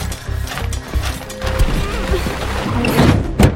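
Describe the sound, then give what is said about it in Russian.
A car door being opened: a few mechanical latch clicks and rattles over a steady low rumbling background, with a sharper click near the end. “Возит к машине. Открывает дверь.”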